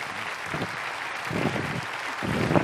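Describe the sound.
Steady applause from a church audience at an anniversary gathering welcoming a pastor to the stage, a dense patter of many hands that swells slightly toward the end, with no voices over it.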